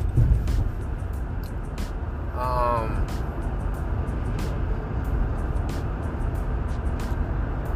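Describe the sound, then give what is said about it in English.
A car drives past on an otherwise empty road, a steady, broad rumble of tyres and engine that stays even throughout. “so basically, there's no people driving on the road. And I just seen one person driving just now.”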